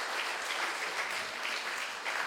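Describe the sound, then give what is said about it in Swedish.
A church audience applauds with steady, dense clapping. It stays evenly loud throughout, with no voices. “Ni en applåd för Guds folk, för Gud och för Hesekiel.”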